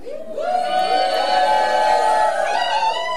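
A lively live audience in Méaudre in the Vercors cheers and whoops. Loud, sustained shouting carries a prominent held tonal whoop above the crowd noise.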